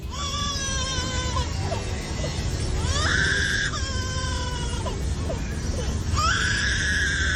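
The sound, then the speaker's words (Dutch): A lyrebird in an Australian zoo mimics a crying baby: a series of loud, high, wailing cries with clear tonal harmonics, each sliding and wavering in pitch like an infant's sobbing wail. “Maar deze liervogel uit een Australische dierentuin spant toch wel de kroon. Hij heeft waarschijnlijk iets te veel baby's op bezoek gehad. Want dit is het geluid dat hij nu kan maken.”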